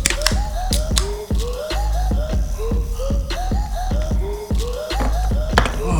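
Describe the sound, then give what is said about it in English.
Burps erupt in a rapid string of many short, croaking voiced bursts that overlap one another, punctuated by sharp clicks. “Hear that? Hear those burps?”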